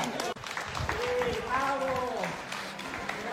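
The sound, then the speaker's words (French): A crowd cheers and applauds at the finish of the Tour, a steady wash of clapping and shouting with voices speaking over it throughout. “Voilà, tous les gens vont encourager là.”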